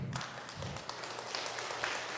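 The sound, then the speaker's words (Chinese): Faint clapping from a church audience, a soft, scattered patter of hands that stays low and even. “哇，姐妹都拍手，你看啊，显然我们做对了一件事情啊。”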